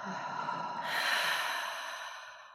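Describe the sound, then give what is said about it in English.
A person takes one slow, deep breath in and exhales, making a soft, continuous airy rush that swells and then fades away. “just breathe in for a moment. Take a deep breath in and exhale.”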